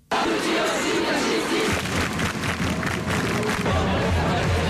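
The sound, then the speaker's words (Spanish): A student protest crowd fills the streets of Paris during the largest of Tuesday's marches, a loud, continuous roar of massed voices with chanting and shouts that swells and holds. “Escuchamos el sonido de la manifestación estudiantil en la capital, en París, la más numerosa de las convocadas este martes.”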